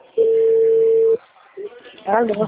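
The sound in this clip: Telephone call tone as a number is rung: one steady, low, loud beep lasting about a second, a brief fainter blip, then a voice speaking.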